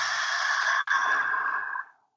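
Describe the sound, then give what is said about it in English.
A long, loud, airy mouth exhale during a guided breathing exercise, released after a counted inhale through the nose and a held breath. The breath lasts about two seconds, then tapers off into silence. “Audible exhale for four.”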